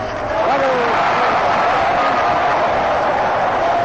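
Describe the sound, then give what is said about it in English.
Stadium crowd roaring at a baseball game, Game 7 of the 1934 World Series, as Dizzy Dean swings at a pitch: a steady, dense wash of crowd noise with a voice talking over it. “strike, Dean, this is a terrific cut, and the roar of the crowd comes up as he swings all the way around, pivoting, and then falls to the ground.”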